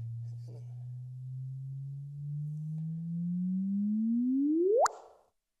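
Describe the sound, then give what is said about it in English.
Simulated gravitational-wave chirp of two merging compact objects: a steady, low pure tone creeps slowly upward in pitch for several seconds, then sweeps sharply up in a brief whoop and cuts off abruptly. “And so the frequency goes up and up, and you get what's called a chirp. That whoop, that part is the chirp, and that gives you a lot of information.”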